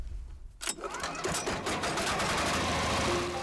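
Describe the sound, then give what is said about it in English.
A grinder processes prosopis trees into powdered animal feed, kicking in with a sharp burst and then settling into a steady, dense mechanical whirring drone with a rattling edge. “After collecting the prosopis, the villagers feed it into the grinder. The result? Nourishing powdered food for the animals.”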